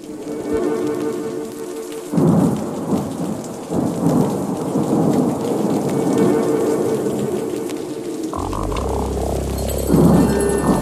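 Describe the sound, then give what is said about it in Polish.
A summer thunderstorm: steady rain pours throughout while several rolls of thunder rumble, with a deep, heavy peal near the end. “A może coś pomiędzy, może właśnie taka letnia burza? Ja chcę sobie tak to wyobrażać.”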